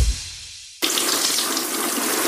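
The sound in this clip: Water poured over a bathroom cabinet starts abruptly as a loud, steady, broad splashing hiss and runs on without a break.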